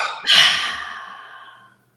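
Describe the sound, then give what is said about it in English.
A deep sigh-like breath during a stress-relief exercise: one breathy rush that starts abruptly, holds, then fades away over about a second and a half. The breath is fairly loud and heard alone. “deep inhale with a smile, shoulders up and dropping the shoulders.”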